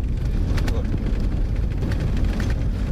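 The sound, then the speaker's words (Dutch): A four-wheel-drive car drives on an unpaved mountain road, giving a steady, heavy low rumble of engine and tyres with continual jolts and rattles. “Onverharde weg. De bergen in. Niet bepaald comfortabel, zelfs in deze four-wheel drive. Niet makkelijk eh, om te rijden.”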